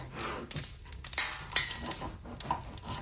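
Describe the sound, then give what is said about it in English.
Potatoes being sliced with a knife: several sharp chopping clicks and light clatters at an uneven pace, over a soft background murmur. “I thought I was getting the hang of slicing potatoes.”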